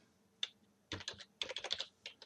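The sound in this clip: Clicky keystrokes on a computer keyboard as a method name is typed into code, coming in quick irregular bursts of many taps with short pauses between them.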